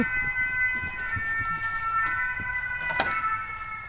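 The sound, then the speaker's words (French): City noise with a siren wailing steadily over a constant low traffic rumble, the siren tone holding fairly level throughout. “Et on a aussi les bruits de la ville.”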